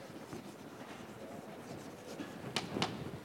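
Pen strokes scratch through an equation being written, a soft, continuous rasp with two sharper, brighter strokes near the end.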